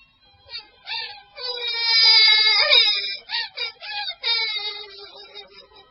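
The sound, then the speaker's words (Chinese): Alice cries in a children's fairy-tale audio drama, a voice acting out the sobs as a high, wavering wail in several breathy phrases that swell and then break into shorter sobs. “于是，爱丽丝便哭了起来。”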